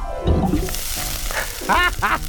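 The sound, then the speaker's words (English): A spoon drops into molten lava with a steady, loud sizzling hiss as it melts, mixed with a few squeaky, tonal cartoonish sounds near the end. “I'll just drop the spoon in the lava and burn the spot right off! Say goodbye, spoon!”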